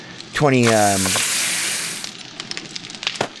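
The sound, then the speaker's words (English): A boiled egg cooks over a campfire in a video game: a brief tonal swoop, then a loud, steady sizzling hiss that fades after about two seconds and ends in a few faint scattered clicks. “we're going to take this egg here while we're still at our campfire. We're going to click on it. Recipes. Boiled egg.”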